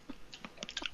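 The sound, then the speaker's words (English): Crisp crunching and chewing of a snack seasoned with sesame seeds, garlic, onion and salt, as a man eats it: a few quick, crunchy bites in fast succession, fairly faint and heard alone. “That's the sound of a dude just eating food and recording it.”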